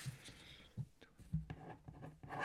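Pen scratching on paper as a number is written down: a few short, soft strokes in an irregular rhythm, faint throughout.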